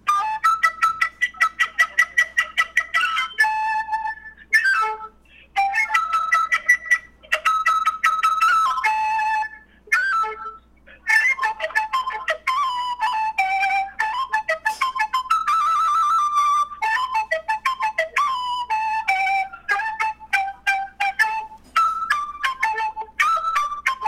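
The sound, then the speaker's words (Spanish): A quena flute imitates bird song alone in a long run of bright, high whistled notes. Quick trills and short warbling phrases are separated by a few brief pauses. “¿tiene ahí en sus manos la quena en este momento? Sí, aquí tengo. ¿Puede adelantarnos ya un poquito del canto de un pájaro que estará? Claro, les puedo tocar un fragmentito.”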